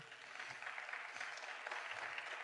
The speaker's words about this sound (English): Come on, give God praise.